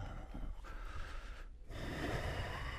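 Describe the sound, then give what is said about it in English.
Breathing: a steady, airy, noisy breath is broken by a short pause, then a fuller and louder breath follows, with no talk. “About five more counts. We're listening for the breath.”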